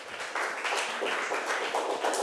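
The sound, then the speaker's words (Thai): Students applauding classmates in a school class, a fairly soft patter of clapping that comes in a few uneven waves and continues to the end. “ปรบมือให้ทั้ง3คนหน่อยค่ะ”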